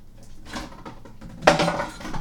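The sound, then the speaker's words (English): Kitchen utensils clatter and scrape as someone rummages for a knife, a jumbled metallic rattle that ends in one louder clank and continued jostling. “Now I need to find my knife.”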